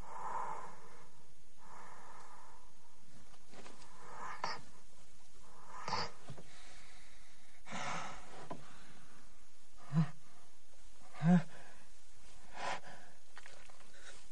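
Quiet, shaky breathing of a man waking up while buried alive, soft uneven inhales and exhales with a couple of sharper snorting breaths near the end.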